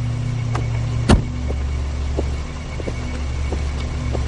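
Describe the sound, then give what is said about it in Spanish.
A car stands in front of a building at night, its engine giving a low, steady rumble, with one sharp click early on and a few faint ticks afterward. “De noche, un automóvil se detiene ante un edificio. Birman sale del coche.”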